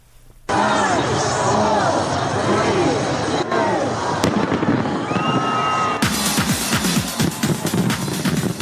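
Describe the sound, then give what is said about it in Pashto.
New Year 2020 fireworks in Sydney, Australia burst in suddenly after a quiet start and keep up loud, continuous crackling and popping mixed with crowd voices, growing denser and sharper toward the end. “د استرالیا سیدنی ښار چې په یو ورځ په کورونا وایرس د خورا ډیرو کسانو د اخته کېدو پیښه ثبت کړې وي د 2020 کال د هرکلي لپاره پکې خلکو اورلوبي وکړي.”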